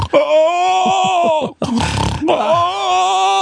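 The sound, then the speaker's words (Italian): A man's voice imitates snoring mixed with groaning: long, loud, drawn-out moaning groans on either side of a harsh, rasping, snore-like breath in the middle. “russava proprio, russava, oh! E ogni tanto anche aveva dei gemiti, dei rantoli, era un misto fra russare e rantolio”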